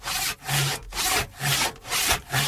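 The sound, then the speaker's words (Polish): A saw cutting the lower branches off a Christmas tree, a steady run of rasping back-and-forth strokes in an even rhythm, loud and with no voices. “Zwariowałeś? Choinkę piłujesz! Te dolne gałęzie tylko.”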